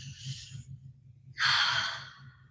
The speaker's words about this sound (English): So I just close my eyes and I'm just going to breathe.